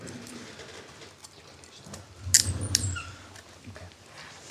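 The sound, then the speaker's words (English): A handcuff locking onto a convicted man's wrist in a courtroom after sentencing: two sharp, bright metallic clicks in quick succession over a faint, low background murmur. “That was the sound of a handcuff being put on”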